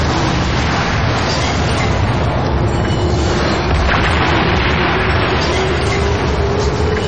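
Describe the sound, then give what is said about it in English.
Explosion sound effects standing in for a demolition of the Tacoma Dome: a loud, dense rumble with a deep low-end roar that stays even for the whole stretch, with no separate blasts standing out. “A bunch of explosions. Are they blowing it up? Yeah. I didn't know that. They're blowing up the Tacoma. They should have done this years ago. All right. Now we'll throw out a couple of explosions there.”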